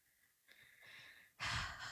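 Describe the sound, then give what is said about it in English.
Heavy breathing, quiet and airy: a soft breath is followed by a louder, rougher one that holds for about half a second. “You're breathing heavy for no reason.”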